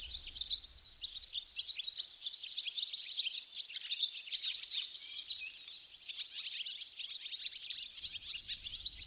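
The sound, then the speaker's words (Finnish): A flock of barn swallows chirps in a dense, continuous chatter of high, bright twitters and tweets that overlap without pause. “Pääskysparvi saattaa käsittää 100, jopa 1000 yksilöitä, ja siitä parvesta kuuluu riemu.”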